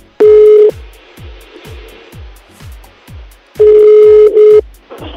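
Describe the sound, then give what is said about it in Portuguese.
Telephone dialing and dial tone while a call is being placed again: two long, loud, steady tone bursts separated by a quieter stretch, with a regular low clicking pulse running throughout. “vamos ligar de novo.”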